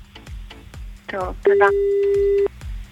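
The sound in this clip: A phone call to a regular line rings out: one long, steady ringback beep of about a second sounds over a rapid, regular ticking beat.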